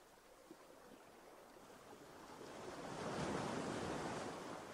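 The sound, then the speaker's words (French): Ocean waves wash onto a beach as a faint, continuous hiss of surf mixed with wind, swelling louder past the midpoint before easing slightly. “Ce bruit de l'eau, encore, vous aide et vous accompagne.”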